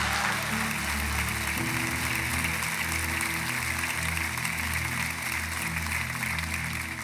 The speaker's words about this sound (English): Ladies and gentlemen, Summit Church, would you put your hands together and welcome Pastor Joby Martin.